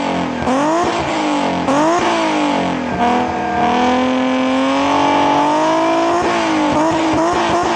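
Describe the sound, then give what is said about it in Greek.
A naturally aspirated Alfa Romeo V6 revs loudly, its harmonic engine note climbing and dipping several times before holding a high, sustained howl. “Αν ακούς αυτό τον V6 να βρικάτε, ξέρεις ότι μιλάς για Αλφα Ρωμαίο.”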